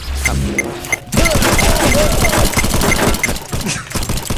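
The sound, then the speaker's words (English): Rapid gunfire from a Grand Theft Auto video game: a dense, noisy burst of overlapping shots that keeps up at a fairly steady level for several seconds. “there's someone playing Grand Theft Auto over here”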